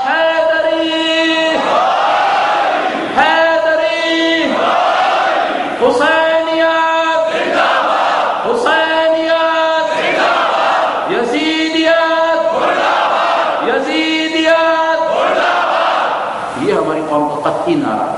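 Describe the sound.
Crowd at a rally chanting a slogan, loud massed voices repeating the same short phrase many times in a steady rhythm, with brief breaks between phrases.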